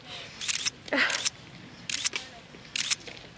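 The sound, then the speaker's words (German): Camera shutters clicking as photographers among reporters take pictures: four short bursts of rapid mechanical clicks separated by brief pauses, loud and crisp. “jetzt mach noch einmal ein paar Fotos da.”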